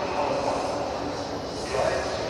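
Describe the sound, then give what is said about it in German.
Ambience of Frankfurt main railway station with trains, a steady broad rumble and hiss that stays even throughout. “Aber wie ihr vielleicht hören könnt, bin ich gerade am Frankfurter Hauptbahnhof. Kapitän Jansen, der muss hier gleich mit der Bahn ankommen. Ja, ja, mit dem Zug.”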